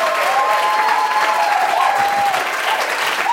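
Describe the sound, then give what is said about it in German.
A church audience gives a big round of applause: dense, loud, steady clapping that holds at the same level for the whole stretch, with no talking over it. “Bitte gebt uns einen großen Applaus.”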